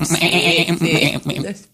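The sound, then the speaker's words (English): A person's voice imitates goats bleating, giving a few loud, quavering, nasal bleats that warble in pitch before breaking off and fading out. “You be the man, I'll be the goats in the background.”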